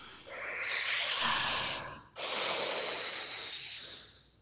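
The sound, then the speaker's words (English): A single deep breath: a long, airy inhale of about two seconds, followed at once by a slow, softly hissing exhale that fades out, with no other sound around it. “Take a deep breath with me. Ready?”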